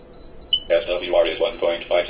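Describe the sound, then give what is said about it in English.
Beeping from an antenna tuning meter as the antenna is moved away from resonance: a brief high chirp, then a rapid repeating series of tonal beeps at steady loudness. “I'm now moving away from resonance. You should be able to hear the beeping increasing.”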